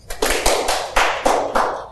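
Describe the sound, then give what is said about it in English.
An audience gives scattered hand claps, about seven crisp, uneven slaps in two seconds, fairly loud and unaccompanied by talk. “One clap. Try it again.”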